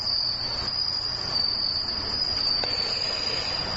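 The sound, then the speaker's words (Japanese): Bell crickets chirping in a steady, high, ringing trill that holds without a break, with faint background hiss and no voices. “今朝もそうですが鈴虫の声が一段と大きくなるんですね”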